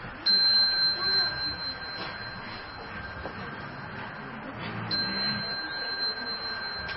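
A Buddhist temple chime (khánh) is struck twice, each strike giving a bright, sustained ringing tone over a low background murmur.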